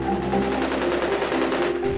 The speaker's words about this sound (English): That was the sound of gunfire that raged into the early hours of Tuesday, despite the government announcing a nationwide curfew.